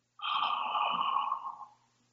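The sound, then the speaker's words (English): A person slowly exhales, one long, steady, airy breath that begins suddenly, holds for over a second and gradually fades away, heard alone without speech. “So I am able to exhale even after talking for so long.”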